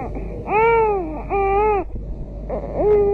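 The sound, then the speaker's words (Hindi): A baby cries loudly in three drawn-out wailing bursts, each a strained, harmonic-rich cry that swells and bends in pitch, with short gasping pauses between them. “बाबा इतने जोर से क्यों रो रहा था? दूर से इसके रोने की आवाज सुनाई दे रही थी।”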